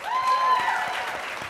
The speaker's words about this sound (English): please give a warm round of applause to Ms. Sela Ward,